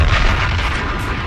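A bomb explosion sound effect: a loud, deep blast that holds as a continuous low rumble for the whole short clip, heavy in the bass and with no pause.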